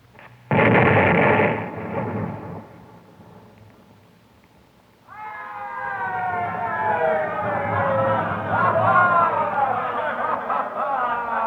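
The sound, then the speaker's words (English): A cartoon bomb explodes in a cave in a Walt Disney Peter Pan story recording, a loud blast that fades over a couple of seconds, followed after a short lull by wavering, siren-like wailing tones. “Look, it's smoking. It is a bomb. Stand back, Tink. I'll throw it out of the cave.”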